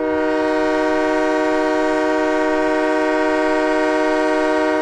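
A locomotive horn blows one loud, sustained chord-like tone that stays steady in pitch and volume for the whole stretch, with no other sound.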